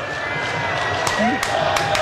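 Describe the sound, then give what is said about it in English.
Stadium crowd in Seattle cheering for US men's national team manager Mauricio Pochettino at a soccer match: a steady, broad roar runs throughout, with a few sharp bursts standing out in the second half. “The crowd in Seattle letting him feel the love, man.”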